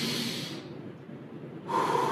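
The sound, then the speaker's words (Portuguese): A quick, deep breath drawn in as a breathing exercise: a rush of breathy air, a short pause, then another airy breath. “Rapidamente, respira fundo.”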